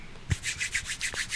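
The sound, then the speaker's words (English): Hands rub together to brush off crumbs, making soft, quick, rhythmic swishing strokes, several in a row, with a dull thump near the start. “Rubbing his hands together. He's cleaning the crumbs off his hands.”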